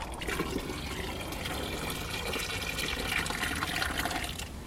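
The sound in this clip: Water runs and splashes continuously while seeds are rinsed clean and separated, the rinse water saved to water a garden; a steady, fairly quiet gush with no speech.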